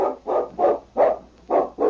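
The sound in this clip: A large dog barks six times in quick succession, each bark a short, mid-pitched, fairly loud burst with brief gaps between them.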